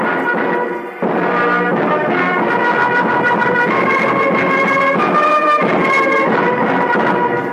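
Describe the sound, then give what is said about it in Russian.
An orchestra plays a celebratory fanfare (tusch) for prize winners. A loud, bright flourish of sustained full chords follows a brief dip near the first second and continues without voices. “Победители награждаются памятными подарками оркестр «Туш». Тут заиграла музыка.”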